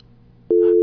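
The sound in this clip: A telephone busy tone after a dropped call cuts in halfway through as a steady, loud, single-pitched electronic tone that holds to the end over faint background noise.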